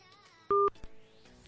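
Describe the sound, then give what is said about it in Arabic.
A single short telephone beep as a caller's line cuts off during a radio show call-in, brief and loud against a faint background. “للأسف الاتصال اتقطع، ياريت حضرتك تكلمنا تاني ونكون شاكرين جدا ليك.”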